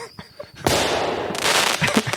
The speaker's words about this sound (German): Ich muss jetzt gleich mal hier einen Böller loslassen